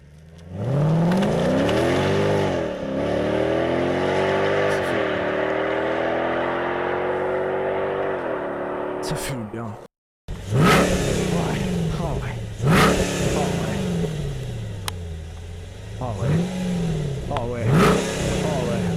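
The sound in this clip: A car engine revs through its exhaust pipe, first in one long, loud sustained rev that climbs and holds. After a brief cutout, a series of sharp throttle blips follows, each rising and falling in pitch.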